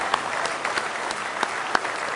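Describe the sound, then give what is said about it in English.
Congregation clapping hands during a church worship service: dense, steady applause with a few sharper individual claps standing out, and no voices. “Let's just go ahead and give him a good hand clap.”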